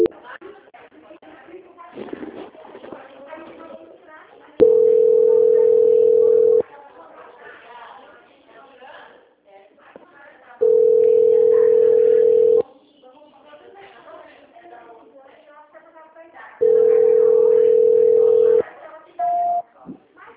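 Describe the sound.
Telephone tones during a call transfer: three long, steady, evenly spaced beeps of about two seconds each, with voices talking in between, then a short, higher beep near the end.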